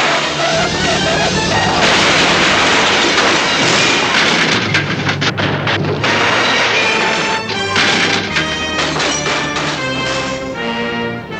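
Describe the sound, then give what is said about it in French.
A van crashes violently into the bottom of a ravine: a loud, dense burst of smashing, clattering and heavy thuds that continues without a break, with no speech. “Tous les trois vont s'écraser au fond d'un ravin.”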